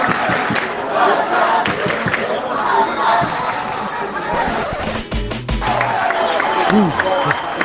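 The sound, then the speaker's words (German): Football fans chant in a stadium during a Barça B match against Castellón, the home supporters taking over with a loud, sustained chant mixed with cheering and some clapping. “Bisher haben die rund 200-300 Fans eben aus Castellón für ganz gute Stimmung gesorgt. Aber jetzt hört ihr, wer hier jetzt tonangebend ist.”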